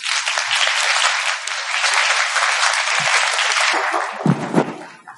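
An audience applauds to welcome a pastor onto the stage: steady, dense clapping holds for about four seconds, then thins out into a few scattered claps as it fades.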